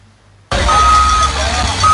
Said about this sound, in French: Sur un linéaire de 400 mètres, pelleteuse et camion ben s'activent.